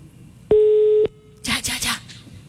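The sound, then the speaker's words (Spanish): Ringback tone of an outgoing telephone call: one steady, mid-pitched tone lasting about half a second, followed after a short pause by a few brief, noisy bursts. “Listo. Va, está llamando.”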